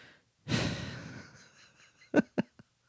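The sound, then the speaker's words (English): One really big breath, a loud rushing whoosh of air that begins abruptly and trails off over about a second, followed after a pause by a few brief, sharp mouth or knock sounds. “I had to take a really big breath there.”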